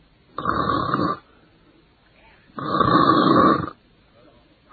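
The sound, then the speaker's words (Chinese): Snoring of a man asleep in bed: two long, rasping snores separated by a quiet pause, with a third just starting at the end. The rhythm is slow and even, with no words spoken. “打了呼噜了”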